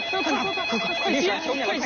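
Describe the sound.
A phone ringtone plays a melodic, voice-like tune that repeats without a break. It is fairly loud and fills the whole two seconds.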